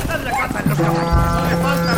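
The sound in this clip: Horses' hooves clip-clop beneath loud shouting voices as a hunting party loads its game onto the horses at nightfall on a mountain.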